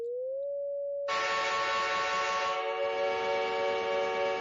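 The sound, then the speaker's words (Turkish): A steam-style train whistle sounds as a sustained, rich, buzzy steady blast lasting several seconds. It is preceded by a short, pure electronic tone that glides slightly upward, and no voices are heard. “Telefondaki çevir sesi 425 Hz. Tren düdüğü 566 Hz.”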